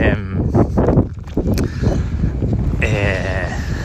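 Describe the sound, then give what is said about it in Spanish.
Wind blowing on a microphone outdoors, a rough, continuous buffeting rumble that stays loud under steady talking throughout. “Perdonad por el viento, pero pues es lo que hay.”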